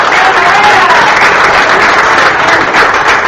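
Audience applause at a mayor's public address: dense, continuous clapping holds at a steady, loud level for the whole stretch.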